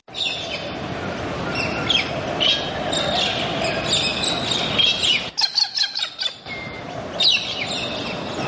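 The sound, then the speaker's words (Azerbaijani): Wild birds call in a Caucasus mountain forest: many chirps and tweets of varied pitch sound over a steady background hiss, with a short lull just past the middle before the calls resume. “Qırqovul, göyərçin, bildirçin, qumru, Qafqaz dağlarında, Qafqaz meşələrində hansı quşlar yoxdur ki?”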